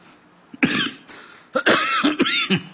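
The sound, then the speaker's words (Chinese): A performer coughs and clears his throat on stage just before singing, a few rough bursts separated by brief pauses, with two stronger clusters of coughing toward the end. “主要演员事儿就多，一说唱，他就要咳嗽，啊，这是一种反应啊”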